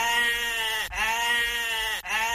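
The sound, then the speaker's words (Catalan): A goat bleats in long, buzzing, evenly pitched calls with an almost mechanical, robot-like quality. Three drawn-out bleats follow one another with only brief breaks between them, and no one talks. “Era com una cabra robot, una mica, aquesta, sí, eh?”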